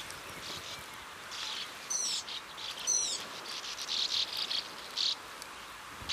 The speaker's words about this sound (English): With 2,600 nests, this sand martin colony is one of Europe's most exciting.